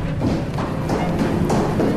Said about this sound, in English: Great Hera, he crashed through that wall as if it were cardboard.